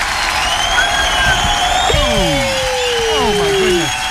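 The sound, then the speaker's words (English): Studio audience applause and cheering welcome a radio host back into the studio: a dense, steady wash of clapping and crowd noise with several whistle-like sliding tones sweeping down through it. “Please put your hands together and welcome back into the studio.”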